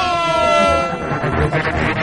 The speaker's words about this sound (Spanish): ¡Dale a la bocina! ¡Vamos a darle un poquito de bocina!